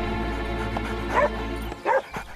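A dog barks at someone holding a sandwich: two short, sharp barks over a steady low rumble.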